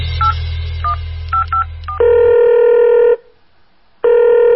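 A telephone number is dialled by a police constable calling a suspect's mother: a quick run of short keypad beeps, then a steady ringing tone sounds twice with a silent gap between, the second ring cut short.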